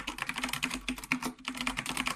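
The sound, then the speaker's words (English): Typing a password on a computer keyboard: quiet, rapid keystrokes clicking in a quick, uneven stream throughout. “And I'll type in my password.”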